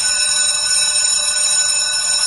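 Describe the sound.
A school bell rings on the morning the new school year starts, a steady, unbroken metallic ringing that holds at an even level for the whole clip with no voices.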